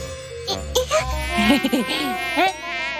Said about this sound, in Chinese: 蚊子，哎，好痒啊。